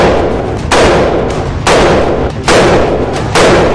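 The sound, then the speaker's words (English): Four loud, sharp gunshots from a semi-automatic AR-15 rifle, fired at fairly even intervals, each with a broad noisy tail over continuous background noise. “I was curious to see if a complete noob like me could shoot way more accurately with the AR-15 compared to the pistol.”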